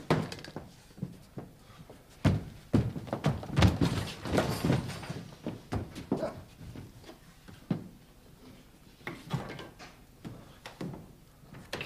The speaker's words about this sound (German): Sofort die Tür einschlagen!